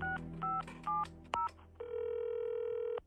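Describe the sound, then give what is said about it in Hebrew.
A mobile phone on speakerphone dials a taxi company: four short two-toned keypad beeps in an uneven rhythm, then a long steady tone that holds for just over a second. “הוא הוציא את הטלפון הנייד, שם אותו על מצב רמקול והתקשר למוניות קשת.”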